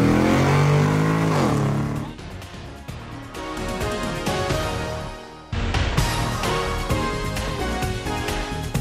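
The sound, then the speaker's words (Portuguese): Car engine shifting into first gear and accelerating: a loud harmonic roar climbs in pitch, drops away briefly midway, then surges again into a sustained, revving drive. “Sérgio, engata a primeira e acelera!”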